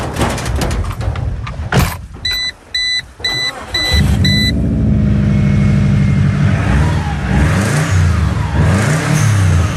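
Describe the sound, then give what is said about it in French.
A Subaru car engine runs and revs, its low rumble rising and falling in pitch for several seconds, preceded by a few clicks and a short series of high, evenly spaced beeps. “Alors, ça, je connais la marque. Subaru, je connais. Qu'est-ce qu'on peut en dire de ce véhicule ?”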